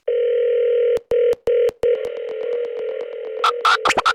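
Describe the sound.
A telephone call is dialled: a steady dial tone is cut by a few brief breaks, then carries on under a few sharp bursts near the end.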